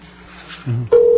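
A telephone rings with steady electronic tones, first a brief warbling tone and then a sustained, loud, even tone.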